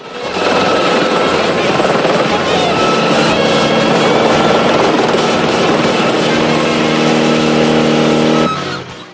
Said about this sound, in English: The helicopter circles around them and overtakes.